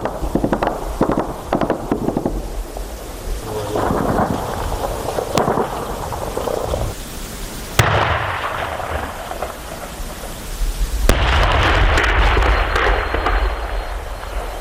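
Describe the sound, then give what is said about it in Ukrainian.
An evening battle near a village, with gunfire and shelling between Ukrainian marines and enemy forces: dense, loud cracks, booms and rumbling fill the whole stretch, with abrupt shifts in intensity and a heavier roar near the end. “Це був вечірній бій. Він розпочався трошки далі від села, під Водяним. Ворог почав стріляти по дальнім позиціям українських морпіхів, і наші хлопці почали відповідати.”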